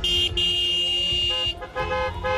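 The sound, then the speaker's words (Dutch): Car horns honk in celebration of a Gaza ceasefire. Several loud, sustained tones overlap almost without a break, with brief dips and shifts in pitch, over a low rumble of traffic. “We gaan toeteren!”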